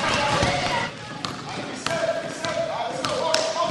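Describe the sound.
A ball bounces several times with sharp, hollow thumps on a hard surface while young voices talk in the background.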